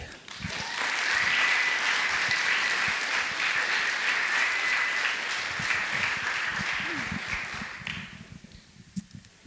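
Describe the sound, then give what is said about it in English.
Audience applause greets a storyteller taking the stage at a story slam: dense, steady clapping that stays loud for about eight seconds, then thins out and fades into a few scattered claps. “Please put your hands together for Cass McBee.”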